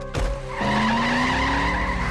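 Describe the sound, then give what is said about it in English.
A car peels away with its tires squealing while the engine revs, its note climbing steadily in pitch after a brief opening burst, loud and sustained throughout. “The vehicle peels through the searing August wind like a bat out of hell.”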